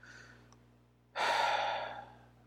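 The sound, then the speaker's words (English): A single deep breath, drawn in sharply and fading out over about a second, heard alone with no talk over a faint steady low hum. “Take a deep breath, I breathe,”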